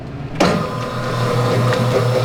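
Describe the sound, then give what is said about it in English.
An electric dough mixer in a bakery, mixing flour and eggs, switches on abruptly after a quieter moment, then runs with a loud, steady mechanical whir and hum until the end. “He's weighing flour, cracking eggs, and adding it all to the mixer. Encendemos la máquina.”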